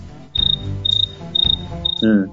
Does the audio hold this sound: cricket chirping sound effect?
yes